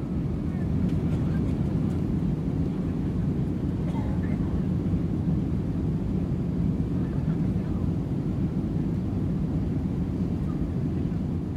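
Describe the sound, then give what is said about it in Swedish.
Pan Am Flight 914, an airliner, taxiing slowly out onto the runway, its engines giving a steady, even low rumble that holds without a break throughout. “Och Pan Am flyg 914 rullar sakta ut på startbanan.”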